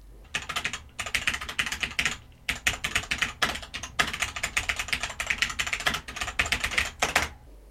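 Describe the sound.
Typing on a Cherry G80 mechanical keyboard: many crisp, sharp key clicks in quick, uneven bursts, separated by a few short pauses.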